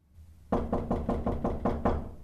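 Knocking on a door: seven evenly spaced, solid knocks in a quick, steady rhythm, moderately loud after a brief quiet start.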